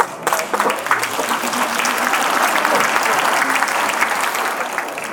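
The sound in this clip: Audience applause that swells quickly at the start, holds steady and loud, then thins slightly at the end, with talk heard over it at times.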